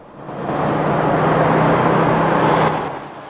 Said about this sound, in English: The cops drive through town with Kersey in the back behind a metal mesh grille.